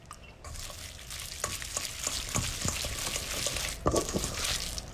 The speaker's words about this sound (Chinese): 盆中加入食用盐一勺，加入少许白糖，加入适量的蚝油，然后将其搅拌均匀，中途加入适量的老抽调色